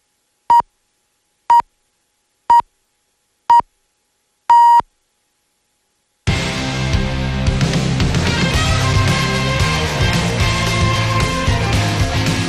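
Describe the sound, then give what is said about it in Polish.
Polish radio time signal marking four o'clock: five short, pure beeps about one second apart, the fifth slightly longer, followed after a brief silence by loud music. “Te sygnały oznaczają, że na zegarze czwarta.”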